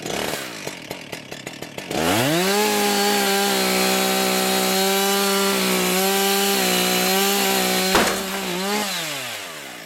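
Chainsaw cutting a bent tree trunk under tension on a tree-bending simulator. Sputtering pulses give way to a loud, steady engine drone through the cut, and a sharp crack sounds near the end as the trunk gives way.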